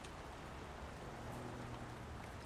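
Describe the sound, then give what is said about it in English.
Rain streams down window glass in a soft, even hiss of patter that stays faint and unchanging throughout, with no voices. “the kitten lies down, pawing at the raindrops sliding down the window glass.”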